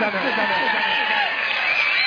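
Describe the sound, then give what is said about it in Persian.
Audience applause at a gathering: dense, steady clapping with cheering throughout, loud and continuous, with crowd voices mixed in. “میخوام با اون دستای قشنگتون گرمیت به این مجلس ببخشید. همه دست بزنن”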